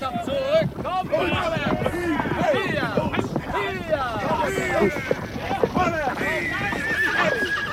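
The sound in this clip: Horses neigh and whinny repeatedly over clip-clopping hooves as riders urge reluctant horses toward a ranch where the grass is burning. The sound is dense and continuous, with many overlapping whinnies throughout.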